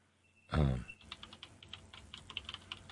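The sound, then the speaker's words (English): Clacking of a noisy computer keyboard being typed on: a brief loud burst opens, then many quick, irregular keystrokes follow at a moderate level. “because this just has to happen. I think a noisy keyboard reminds us of the old newsroom, like WTOP in Washington, or KYW News Radio.”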